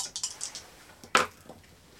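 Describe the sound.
A die being rolled during a board game: a quick run of light clicks, then one sharper clattering knock as it lands, followed by a few faint taps. The sound is quiet overall.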